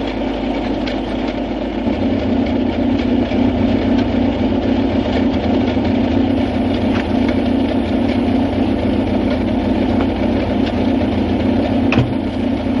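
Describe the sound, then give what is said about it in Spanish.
A car engine idles steadily while the driver steps out, a continuous low rumbling hum that holds an even level throughout with no revving. “Se apea sin apagar el motor y se acerca a ella caminando.”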